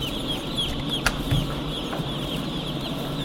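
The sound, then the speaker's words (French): Young chicks in a crowded poultry house, about twenty birds per square metre: continuous high peeping and chirping from many birds over a steady low hum. “Aujourd'hui, les poussins courent, mais dans quelques semaines, une fois qu'ils auront grossi, ils ne pourront plus vraiment bouger. Ils sont 20 par mètre carré.”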